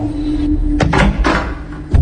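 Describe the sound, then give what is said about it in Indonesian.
The unlocked door of the neighbouring room is opened with a few loud wooden knocks and rattling thuds over a low hum, and a last thump comes near the end. “aku coba ketuk pintu kamar sebelah. Tapi tidak ada yang menyahut. Lalu aku coba membuka pintu kamar itu.”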